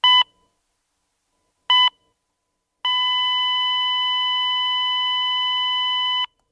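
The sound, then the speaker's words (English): A heart monitor beeping as a heart stops: two short, clear electronic beeps followed by a long, steady, unbroken flatline tone that holds for several seconds before cutting off, loud and alone. “That's the sound of a heart stopping, and hearts can stop when you least expect it.”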